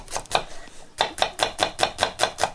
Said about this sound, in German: ich tue jetzt erstmal die Zwiebeln schneiden